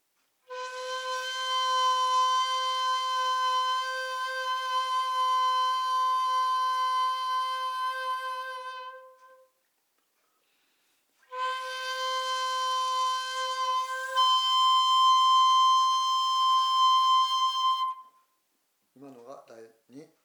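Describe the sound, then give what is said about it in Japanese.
A jinashi shakuhachi bamboo flute plays two long, breathy, sustained notes separated by a pause. The second note is higher and shifts partway through, and a brief faint sound follows at the end. “地なし尺八です。”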